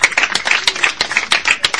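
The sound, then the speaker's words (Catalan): Applause for a guest: a brief run of sharp, quick hand claps from a small group, dense and uneven, lasting under two seconds. “Res, queda un minutet que l'hem d'aplaudir, no?”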